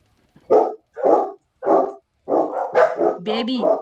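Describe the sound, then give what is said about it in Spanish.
Small dogs barking: three sharp, evenly spaced barks, then a quicker run of overlapping yaps, loud and clear against a quiet background. “Por aquí bueno, están saludando los perritos.”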